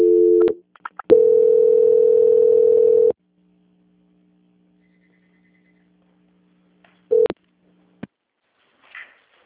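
Telephone line tones sound as a call is transferred: a short tone, then a steady tone of about two seconds, then a low hum. A brief tone and a click come near the end.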